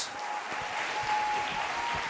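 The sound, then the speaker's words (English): Applause from a church audience welcoming a pastor to the stage: dense, steady clapping from many hands that holds at an even loudness for the whole stretch. “Get up on your feet. Give him a hand clap.”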